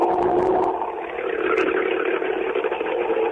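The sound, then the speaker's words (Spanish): A Chevrolet Camaro TC Pista race car engine running in the pits gives off a steady whirring drone with a busy, rattling texture. Its loudness stays fairly even, dipping slightly around a second in before holding level again. “Motor en marcha, calle interna, el Camaro del Canin que maneja en TC Pista, Bautista Damiani, y ahorita colocada, por supuesto. El primer motor encendido, por lo menos en esta parte de boxes.”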